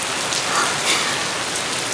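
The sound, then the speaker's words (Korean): A sudden rain shower pours down, making a steady, dense hiss of drops hitting surfaces. The sound stays even and continuous throughout, with no voices. “갑자기 웬 소나기? 비?”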